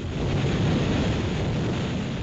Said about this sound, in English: That is the sound of roaring wind from the Statue of Liberty's torch